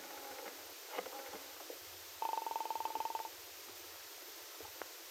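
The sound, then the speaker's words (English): A telephone number is dialed in a phone booth at a corner drugstore. A rapid run of buzzing pulses lasts about a second, after a few fainter brief tones and clicks. “She hurried into a telephone booth and dialed the number of Del Shipley's apartment.”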